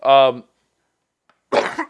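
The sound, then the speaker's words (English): A person coughs in two short bursts separated by a pause of over a second. The first burst is voiced and throaty, and the second is rougher and breathier. “see, you got me all worked up. Now I'm coughing.”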